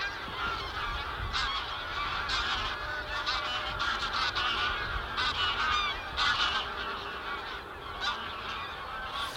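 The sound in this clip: Greylag geese with their young honk continuously as they come in to a new nature area to bathe and forage. Many overlapping nasal calls form a dense, lively chorus with no pauses.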